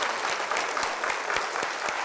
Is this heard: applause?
yes